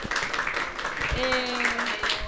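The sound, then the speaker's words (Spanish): Audience applause at the close of a Chilean pedagogy gathering, Encuentro Pedagogías Nómades, moderately quiet clapping from many people, mixed with voices talking through it. “Un aplauso.”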